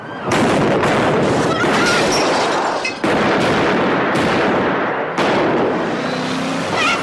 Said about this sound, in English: See how well those girls shoot? I didn't have to show them that.